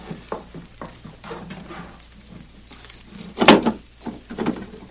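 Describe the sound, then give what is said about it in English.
A safe being opened: one loud, sharp clunk of its door or mechanism midway through, with quiet rustling and shuffling before and after. “Now, open that safe.”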